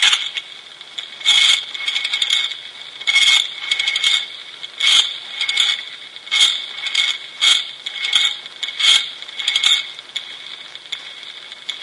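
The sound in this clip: Rotary telephone being dialled: bursts of bright mechanical ratcheting clicks that rise and stop, repeating many times in a regular pattern, fairly loud and with no voices.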